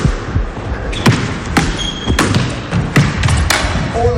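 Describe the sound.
A ball is struck hard against a wall during a ball game. Several sharp, loud thuds come at uneven intervals over a steady background noise.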